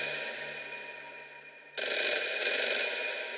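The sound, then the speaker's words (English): A telephone ringing, a steady tonal ring that turns louder and harsher about halfway through and continues to the end, with no voices. “The phone rang,”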